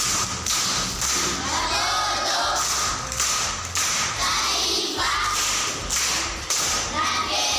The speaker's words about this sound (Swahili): Makofi kwa mjomba.